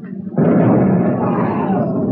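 A main fuel tank on a burning ship explodes, bursting suddenly into a deep, heavy roar that stays loud and rumbling to the end.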